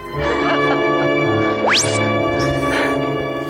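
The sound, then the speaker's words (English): The lightsaber effect from the film Starcrash is a slide-whistle-like glide that sweeps quickly upward once. It plays over sustained tonal music with ringing bell-like tones. “Which, by the way, the lightsaber... Yeah. It sounds like this.”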